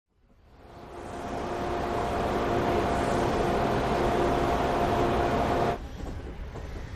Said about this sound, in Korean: 기차는 곧 터널 밖으로 빠져나왔다.